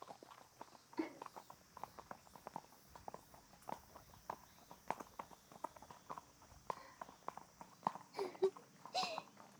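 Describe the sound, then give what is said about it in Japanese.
Horse hooves clip-clop steadily while riding in a forest, with many soft hoof falls in an even walking rhythm, fairly faint throughout. “どう？森の中での乗馬は。”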